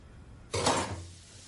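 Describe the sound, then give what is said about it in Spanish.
Dishes, pots and pans being washed: a single brief, fairly faint clatter of crockery and metal that fades into a low hum. “Lava los cacharros.”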